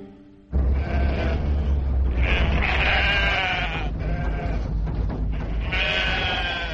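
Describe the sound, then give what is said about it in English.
Sheep bleating in a few loud, wavering calls that begin abruptly and run almost without pause, the cries shifting up and down in pitch over a low steady hum. “To you too, you dumb sheep. No, no, no, she's trying to tell you something. She said, baa, baa.”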